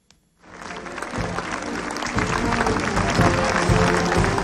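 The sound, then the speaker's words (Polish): Applause from townspeople of Breda at a liberation anniversary ceremony in the market square: after a brief silence, dense continuous clapping swells up and holds steady and loud to the end. “Oklaskami mieszkańcy Bredy dziękowali żołnierzom 1. Dywizji Pancernej pod dowództwem generała Stanisława Maczka za odzyskaną 75 lat temu wolność.”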